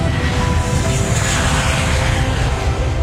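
An airplane taking off: a loud, steady roar that fills the whole clip without a break and with no talk over it.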